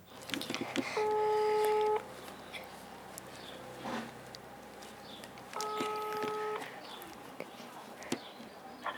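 Ringback tone of an outgoing telephone call: two steady, buzzing ring bursts of about a second each, separated by a pause of several seconds, with faint background noise in between.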